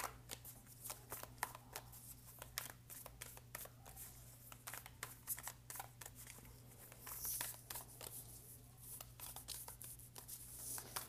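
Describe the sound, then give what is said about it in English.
Tarot cards being shuffled by hand, a quick run of many crisp papery snaps and flutters over a steady low hum, with no voices. “the card that flew out while I was shuffling was the Knight of Pentacles”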